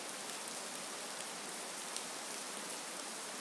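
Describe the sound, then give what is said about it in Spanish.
Heavy rain pours down in a dense, steady hiss with scattered faint drop ticks. It stays even and continuous throughout, with no voices. “¡Madre mía! ¡Cómo llueve!”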